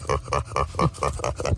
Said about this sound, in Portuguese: É um porco que está contente, de acordo com o YouTube.